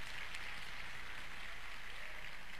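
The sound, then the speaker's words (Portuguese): Sustained applause from a religious gathering, a steady, even wash of clapping at low level with no distinct single claps and no voices. “Vamos aplaudir ao Senhor Jesus.”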